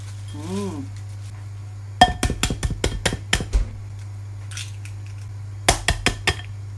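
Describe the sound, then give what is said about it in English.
Sharp clinks ring out as butter and sugar are tipped into a mixing bowl while making a custard pudding: a quick run of bright knocks, a pause, then a few more, after a brief voice at the start. “I'll tip the butter into the bowl first, then I'll add the sugar.”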